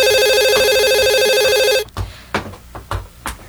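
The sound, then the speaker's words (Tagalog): An electronic telephone rings with an early incoming call, one loud, bright, continuous ring lasting almost two seconds before it stops abruptly, followed by a few soft, low thumps. “Ang aga naman ang tumatawag na to.”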